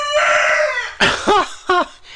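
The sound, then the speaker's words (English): A rooster crows in the morning, opening with a loud drawn-out note followed by three shorter, sharply arching syllables, with no talk. “He's excited today. I'll keep the key down just for a moment, and maybe he'll cock-a-doodle-doo a few more times.”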